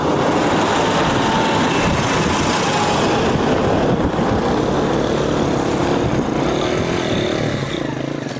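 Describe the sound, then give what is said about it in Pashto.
Engine noise from army tanks, rickshaws and cars driving past near a children's cricket game: a loud, unbroken roar of mixed motors that holds steady for the whole stretch. “د کرکټ دې لوبې ته چیرمه د ملي اردو ضربتي ټانګونه او د ملکي کسانو رخشې او موټرونه ګډ تاګ راتګ کوي.”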